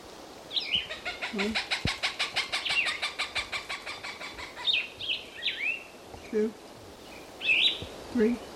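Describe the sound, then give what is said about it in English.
Plumbeous Vireo song of short, slurred whistled phrases, with a Cooper's Hawk's rapid, evenly repeated cackle in the background, heard as a fast run of sharp notes early on; the calls are fairly faint and separated by pauses. “There's Plumbeous Vireo number one with the Cooper's Hawk in the background.”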